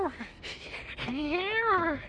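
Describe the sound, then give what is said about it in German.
Cat meowing while shut inside a cupboard, a few fairly loud meows, the last long and drawn out with its pitch climbing and then sliding back down. “Aber Mietzi, wie hast du dich denn in den Schrank eingesperrt? Ich wusste gar nicht, dass Harriet eine Katze hat.”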